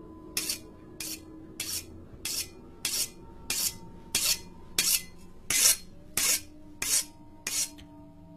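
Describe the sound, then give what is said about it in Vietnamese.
A knife blade scraped repeatedly as if being sharpened, giving many harsh, shrill rasping strokes in a steady, even rhythm, each one short and bright with brief gaps between. “sau đó mết mết lưỡi dao tựa như là đang mài vậy. Âm thanh chói tai vang lên.”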